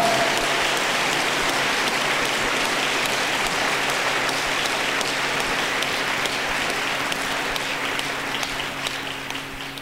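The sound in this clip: Dense audience applause roars on without a break for about ten seconds, a loud, even wash of many hands clapping that thins slightly only at the very end.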